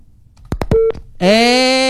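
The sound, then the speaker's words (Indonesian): A telephone call cuts off: a few quick clicks and a short pure tone give way to a steady, buzzy disconnect tone rich in harmonics that holds loudly to the end. “Teleponnya putus ya.”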